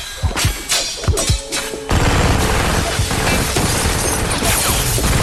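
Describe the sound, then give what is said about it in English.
A machine gun opens fire in a violent action scene: a few sharp, loud reports come first, then a dense, harsh wall of rapid, crackling noise that runs on steadily to the end. “Danica begins to fire a machine gun at Abby”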